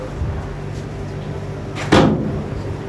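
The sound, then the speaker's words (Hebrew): A window is pushed shut with a single dull thud and a brief rattle. It cuts through a steady low background hum. “טוב, צריך לסגור את החלונות.”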